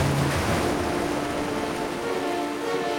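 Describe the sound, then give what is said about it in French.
Waves rolling against huge cliffs make a steady, unbroken roar of surf with a constant windy hiss and no distinct breaks between swells. “Les vagues roulent contre les immenses falaises.”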